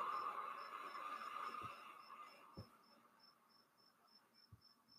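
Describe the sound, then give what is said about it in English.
Cricket chirping outside a window: a steady series of short, high, evenly spaced chirps, faint and continuous, with no talk. “Maybe you can hear the cricket outside my window.”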